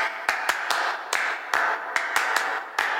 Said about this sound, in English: I got a very fancy manicure. Acrylic gels, can you hear them?